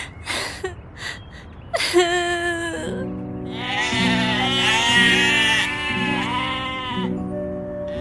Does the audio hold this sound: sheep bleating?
yes